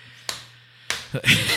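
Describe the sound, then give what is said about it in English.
A hand smacks a desk in a few sharp, separate slaps, each one brief and crisp, with quiet gaps between the hits. “That's intentional noise. That's intentional ASMR. Me smacking about, the desk.”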